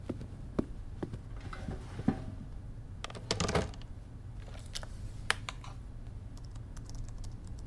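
Typing on a computer keyboard at a desk: soft, irregular key clicks in short bursts, with a few sharper taps standing out against a quiet background.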